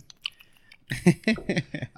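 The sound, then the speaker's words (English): Crisp cookie eaten right at a small microphone in an ASMR-style moment. A few faint clicks come first, then a dense run of crunchy, moist chewing bites fills the second half, with no voices. “we're streaming with an iPad and a little fun mic over here, picking up that beautiful cookie”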